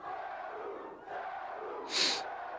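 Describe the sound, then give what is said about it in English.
A wrestling crowd chants the name of the wrestler Sabu at a February 1995 wrestling event, a loud, sustained, rhythmic mass of voices with a brief high, bright burst near the end. “Now we get a Sabu chant from the crowd. They're loving it.”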